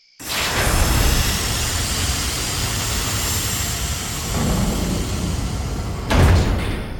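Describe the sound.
A heavy door set into a mountain grinds open after its security is overridden, a loud, steady roaring rumble that swells slightly partway through and ends with a heavy thud.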